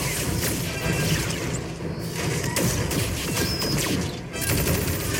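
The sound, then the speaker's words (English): A sci-fi phaser gunfight from season three of Star Trek: Picard, involving Dr. Beverly Crusher: loud, dense energy-weapon blasts, crashes and whooshes pile on one another with no letup. “Okay, Trek nerds, it's technically a phaser fight.”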